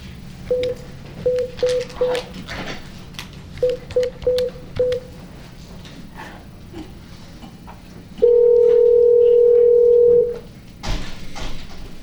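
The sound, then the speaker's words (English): Touch-tone dialing beeps and a telephone line tone sound as a call is placed during a veterinary board meeting. Two quick runs of short beeps are followed by a single long, steady tone of about two seconds over low background noise. “We're going to get Dr. Valentine on the phone, okay?”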